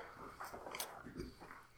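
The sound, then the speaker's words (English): Faint, crunchy biting and chewing on spicy chicken wings, with a few short moist bites rising over a low, steady murmur. “I've taken many bites.”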